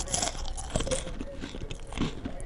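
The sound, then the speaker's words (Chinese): Someone munches crunchy cookies, making steady crisp crunching and chewing noises at a fairly low level. “很快的，女孩沉浸在书本的文字里，忽然她听到了吃饼干的声音。”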